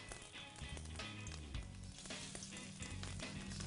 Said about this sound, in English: as it hits that hot oil, of course that egg and the flour is going to bind up and it's going to hold it together.